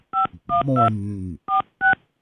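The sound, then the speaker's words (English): Telephone keypad dialing: five short electronic touch-tones in an uneven sequence, with a brief low voice murmuring under the middle beeps. “Can't think and dial at the same time.”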